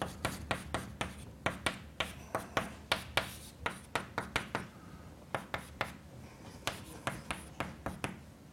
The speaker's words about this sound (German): Man schreibt das dann oft etwas verkürzt so, das sollte ich vielleicht noch hinschreiben.